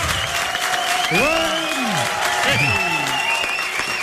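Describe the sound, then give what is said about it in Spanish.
A studio audience at a live radio show claps in a steady, sustained round of applause, with a few cheering voices rising above it. “Ah, sí, ese entusiasmo del público que nos acompaña.”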